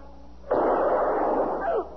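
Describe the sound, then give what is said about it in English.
A single gunshot is fired during a tense standoff, with a sharp loud onset followed by a sustained, rumbling burst of noise that cuts off abruptly. “Oh, dear God. Mister, you shot him. I had no choice.”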